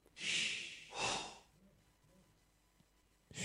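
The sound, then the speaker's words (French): Breathy blowing sound of a villager from the video game Age of Empires: two loud puffs of breath in quick succession, followed by near silence, then a third breath beginning just at the end. “Il souffle. Alors, c'est dans Age of Empires et c'est les villageois, apparemment.”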